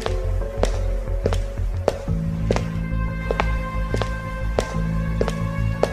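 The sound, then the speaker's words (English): Footsteps walk along an empty sidewalk toward a store in many evenly spaced, crisp steps at an unhurried pace, over a low steady hum that enters partway through. “Major Dewitt starts walking toward the store along the rather empty sidewalk.”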